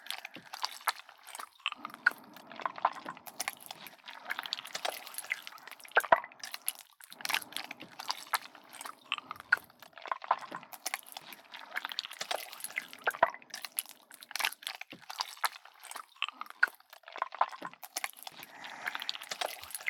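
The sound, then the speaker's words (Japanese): Soft wet squishing as a hair treatment is worked into wet hair. Many quick, irregular squelches and drippy clicks continue quietly throughout, with no speech. “トリートメントつけるわね。まずはこのクチュクチュって音、楽しみましょうね。”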